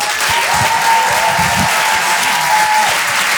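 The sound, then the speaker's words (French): An audience applauds a comedian's entrance with loud, dense, steady clapping that lasts the whole time. A long, level whistle-like tone carries through most of the applause. “Un maximum de bruit, s'il vous plaît, pour Cody.”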